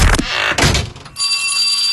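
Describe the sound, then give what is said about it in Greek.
A school bell rings for the first bell of the school year, entering as a steady, bright, sustained ring after a few dull thuds, with no talk. “Και τώρα που χτύπησε το πρώτο κουδούνι”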